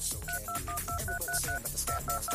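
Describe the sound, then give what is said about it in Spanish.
Telephone keypad tones as a phone number is dialed: a quick, evenly spaced string of bright dual beeps over a busy low background, with a brief pause near the end. “Aquí tenemos un montón de números, ¿ok? Marcando ahora.”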